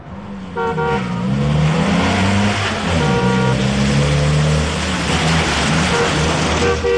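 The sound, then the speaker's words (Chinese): A car is being driven, its engine droning steadily with shifting pitch. A few short horn toots break in over the constant road noise, and no one speaks. “董洁开车去了特警大队”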